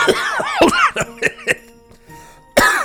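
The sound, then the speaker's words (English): Harsh, voiced coughing from someone with food stuck in their throat: a rapid cluster of throaty bursts, a brief pause, then one more forceful cough. No speech is heard. “I got some Greca stuck in my throat.”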